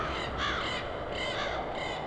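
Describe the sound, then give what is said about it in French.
Harsh cawing from a flock of crows circling in a pale, livid sky: a few rough, repeated caws rise above a steady hiss of background noise, with no talking. “Une nuée de corbeaux tournoyait dans le ciel livide.”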